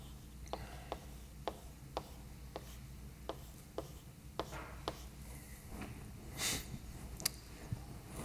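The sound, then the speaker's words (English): Faint writing of mathematical notation: a steady series of short, soft taps and strokes about every half second over a low background hum, with a couple of brighter scratches toward the end. “So let me write down what that looks like.”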